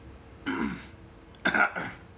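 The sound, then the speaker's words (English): A person clears their throat in two rough, raspy bursts about a second apart, the second one longer and louder, with no talk around them. “I'm sorry. There's something in my throat. What was I gonna say? It's been happening all day.”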